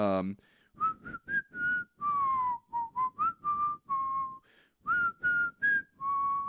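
A man whistles a familiar song, a clear, bright melody of many short notes and a few longer held tones in a lilting rhythm, heard on its own with no talking.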